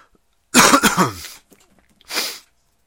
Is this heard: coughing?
yes